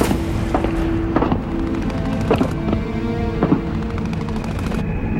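Gunfire as armed men leaving a convoy of cars shoot into a crowd of protesters. A few sharp, loud shots ring out at irregular intervals over a steady rumbling background.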